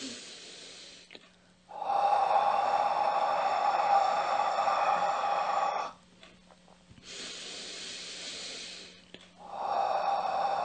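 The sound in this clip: A person chants the letter H as long, breathy exhalations in a mantra: three sustained, steady airy hisses with a faint tonal edge, separated by short silent pauses, the last one cut off at the end.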